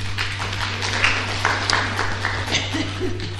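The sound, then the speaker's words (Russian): Scattered clapping from a lecture audience, a few uneven hand claps rising out of murmuring voices over a steady low electrical hum. “Спасибо большое. Аплодируем.”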